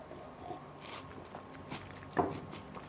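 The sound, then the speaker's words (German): Quiet biting and chewing of a butter speculoos biscuit: soft, steady crunchy mastication with one sharper, louder crunch near the end, set against faint background noise. “will ich mal aus wissenschaftlichen Gründen probieren, ob der Glöck auch mit Butterspekulatius schmeckt”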